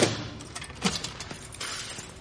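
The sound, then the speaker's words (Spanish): Keys jangle and clink as they are set down on a small piece of furniture inside an apartment, with a few soft knocks and rattles at moderate volume. “Entra en un piso. Deja las llaves en un mueble pequeño y cierra.”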